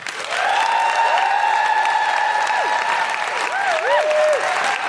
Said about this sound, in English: Please put your hands together and give a big guilty feminist welcome to Sonia Adesara.